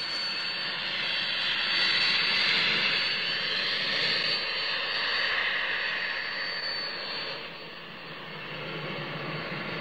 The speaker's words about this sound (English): A small jet plane soars through the clouds, then past the tall building as it approaches a rural landing strip.